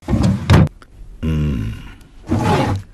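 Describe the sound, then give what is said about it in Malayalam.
A desk drawer being opened and searched: loud rummaging bursts on either side of a drawn-out, droning, creaky scrape as the drawer slides. “ചേട്ടാ, ഈ വലിപ്പിലും കാണാനില്ലല്ലോ.”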